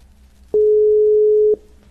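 A telephone ringback tone sounds while calling someone: one steady, unbroken tone lasting about a second, with a soft click at its start and end, over a faint low hum.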